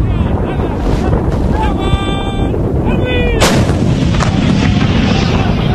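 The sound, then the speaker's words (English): Artillery shelling hits a city centre, with a single sharp, loud blast cracking through midway over a constant roar of wind noise and rumbling. “where they are shelling the absolute downtown centre to try to drive out the last of Gaddafi's forces”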